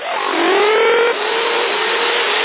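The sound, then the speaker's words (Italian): A car engine revs over a band-limited CB radio link, the loud whine climbing gradually before dropping abruptly just past the midpoint, then holding a steady lower drone. “Dalle un po' di gas, vai.”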